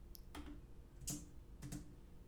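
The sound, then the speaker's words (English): Faint computer keyboard clicks, heard while a looped jazz sample was being set up. A few separate taps fall at irregular intervals, quiet and without talk. “The keyboard clicking?”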